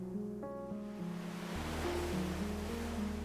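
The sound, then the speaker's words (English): Ocean waves roll onto a shoreline, a broad rushing wash that swells in after a soft sustained musical drone, the surf rising and easing gently as the music continues underneath. “sit comfortably near the shoreline, far enough back to remain dry, close enough to hear every wave as it rises and falls”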